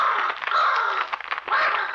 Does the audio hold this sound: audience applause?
no